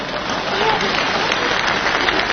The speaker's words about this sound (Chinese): 你以为大伙这是给我鼓掌的？ 那没错， 这是给你鼓掌的。